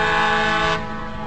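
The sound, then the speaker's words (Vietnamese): A train whistle blows as a train leaves a station, a loud, steady, buzzy tone rich in harmonics that sounds for the whole clip and eases slightly in loudness near the end. “Lát sau, tiếng còi vang lên, lá cờ được phất và đoàn tàu ra khỏi nhà ga.”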